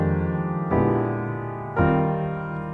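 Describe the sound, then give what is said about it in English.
Piano playing an E-flat major 7 six-nine jazz chord voicing, with root and third in the left hand and sixth, ninth and fifth in the right, struck a few times, each chord ringing and slowly decaying. “Okay, so the one is E-flat major 7. We're going to use a 6-9 chord.”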